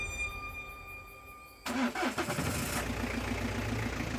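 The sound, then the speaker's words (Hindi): Car engine starting by itself at night: after a steady tonal hum, the engine abruptly cranks and catches with a loud burst, then settles into a rough, pulsing idle. “और car खुद ब खुद start हो गई”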